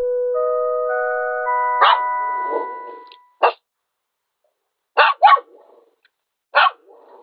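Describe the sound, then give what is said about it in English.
Dog barking, about five sharp barks spaced unevenly with a quick double bark near the middle, following a short run of steady electronic tones at the start. “Was that a dog? That was a dog.”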